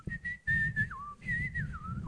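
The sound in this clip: A person whistles a cheerful tune alone, two short phrases of clear, steady high notes, each ending with a quick slide down in pitch.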